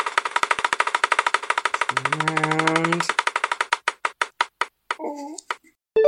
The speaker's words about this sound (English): So for your next question, give the wheel a spin. Let's see what we get.